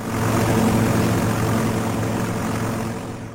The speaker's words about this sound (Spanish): Subid todas al avión o no llegaremos.